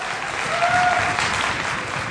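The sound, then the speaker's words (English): Applause from an audience welcoming a speaker, a steady, dense patter of clapping that holds at an even loudness. “Let's put our hands together and let's welcome Ron.”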